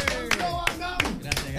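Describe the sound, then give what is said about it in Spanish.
Sparse hand claps from an audience welcoming a guest: a few sharp, evenly spaced claps ring out over a voice that talks throughout. “Venga, aplauso, bienvenido.”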